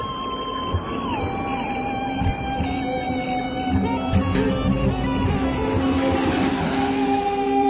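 Space shuttle Discovery touching down on runway 33, main gear first and then nose gear: a steady, loud roar threaded with high whining tones, one of which drops in pitch early on, with a few brief bumps and no talk.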